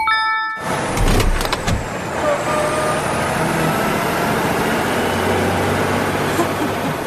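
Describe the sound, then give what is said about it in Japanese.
A car engine accelerates and shifts up into fourth gear. A loud onset with a few sharp bursts gives way to a rising engine whine over a sustained, fairly loud roar. “では最終ギアシフト4速にチェンジアップ”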